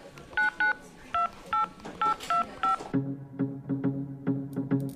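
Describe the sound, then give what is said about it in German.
Touch-tone beeps of a mobile phone being dialed: seven short, steady keypad tones in quick succession, followed by a run of lower, buzzy pulses. “Hier ist mein Handy, ruf sie an.”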